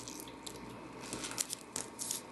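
Biting into a freshly baked, warm green mugwort bread muffin gives a few crisp crunching bites with soft crumbly crackle in between, heard alone without talk.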